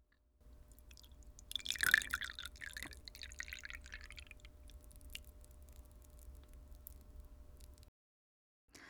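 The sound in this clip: Green tea, brewed with water at 60 to 70 degrees, is poured in a faint, steady trickle lasting about seven seconds, with a slightly louder splashing moment near the start.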